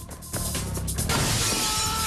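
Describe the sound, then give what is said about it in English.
A man crashes through a glass window of an apartment building. A sudden sharp shatter is followed by a loud, sustained, bright spray of breaking and falling glass. “He crashes through the window of the apartment building opposite.”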